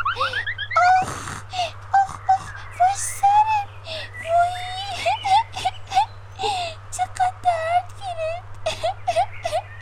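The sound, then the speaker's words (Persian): A voice imitates a cartoon rabbit character crying: high, wavering whimpers and sobs repeating in many short bursts, childlike and insistent. “خرگوش توستی؟ اوف چقدر صدایت آزارم میته، گریه نکن قدر.”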